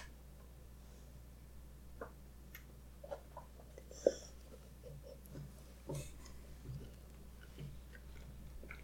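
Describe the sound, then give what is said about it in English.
Faint wet licking and smacking from a pet licking a person's hand, soft irregular clicks scattered throughout with one slightly sharper near the middle, no talk. “Dexter was just licking my hand. I know, that's like an ASMR or whatever it is.”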